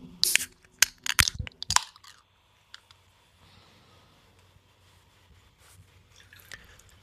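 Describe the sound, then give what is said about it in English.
A can of peach hard cider cracks open with a quick burst of sharp snaps and hissing clicks in the first two seconds, followed by a faint, low fizz. “I love the way... a can sounds when you open it. Yes. It is better than a bottle. Like that initial pop and then like the peel back of the tab,”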